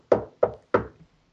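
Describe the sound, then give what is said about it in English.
Knocking on the door of a cell in a dungeon-like holding room: three firm, evenly spaced knocks, each sharp and resonant, followed by a faint, softer tap. No voices. “There's a knock on the door.”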